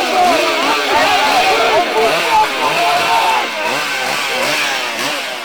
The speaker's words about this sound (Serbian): Francuski i nemački vojnici motornim testerama uklonili su drva, a lopatama zemlju.